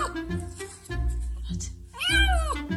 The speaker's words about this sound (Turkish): Otomobilin motoruna giren yavru kedi ortalığı birbirine kattı.